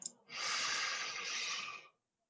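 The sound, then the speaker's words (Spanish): A person inhales during a breathing exercise, drawing one long, smooth, airy breath that lasts about a second and a half before cutting off into silence. “Vamos a seguir nuestra rutina, ya sin guía, vamos a inhalar.”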